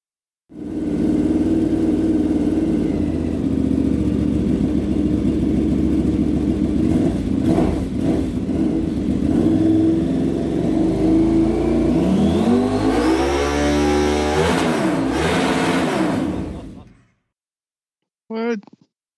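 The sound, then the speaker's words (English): Engine of a KTM Super Duke 1290 motorcycle at a loud, high, rumbly idle that holds steady for about sixteen seconds, with revs climbing briefly near the end before it cuts off. “Look up the new, 131 or 132 cubic inch kit while this one's playing. KTM Super Duke 1290.”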